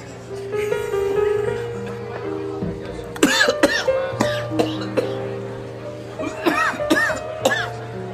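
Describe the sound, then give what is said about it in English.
Coughing after something went down the wrong way: several harsh, throat-clearing coughs come in bursts, mixed with talking voices. “Excuse me. Went down the wrong hole. You okay? Take your time. That went down the wrong hole.”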